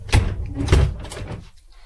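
A cupboard door under the stairs opens and closes, giving two solid thuds about half a second apart, followed by softer handling noise that fades out.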